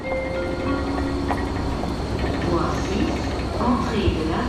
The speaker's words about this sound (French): Bienvenue à la gare de Lausanne. Ici, aujourd'hui, des dizaines de milliers de personnes se bousculent tous les jours au milieu d'un gigantesque chantier.